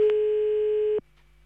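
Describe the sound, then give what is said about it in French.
A steady, even telephone tone sounds while a call is placed for a radio phone-in, holding one pitch for about a second before cutting off abruptly, leaving a faint low hum. “On y va, on appelle Mélissa, 19 ans, à Ougré. Espérons que ce soit pas le répondeur.”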